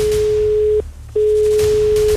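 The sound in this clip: Telephone ringing tone as a radio host dials a listener to award a prize: a steady, mid-pitched electronic tone sounds alone, broken once by a short silent gap before resuming.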